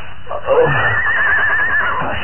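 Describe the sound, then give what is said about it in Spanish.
Horses react nervously: one shrill, quavering whinny wavers at a high pitch for about a second over a low, muffled rumble. “Reanuda el avance, acercándose hacia los caballos. Las bestias reaccionan nerviosas ante su presencia.”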